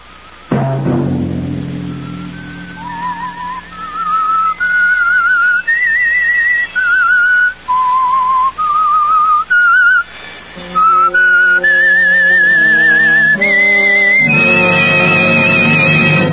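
A man whistles the eerie theme tune of The Whistler, a slow melody of sustained, wavering notes that climb and dip, carried alone over a low, steady backing tone.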